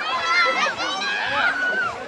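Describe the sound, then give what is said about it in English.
A crowd of teenage girls screams while mobbing a boxer at a staged workout in a public park in Guadalajara. Many high-pitched shrieks overlap in a dense, unbroken wall of sound from start to finish. “At a staged workout this week in a public park in Guadalajara, Alvarez was mobbed by screaming teenage girls.”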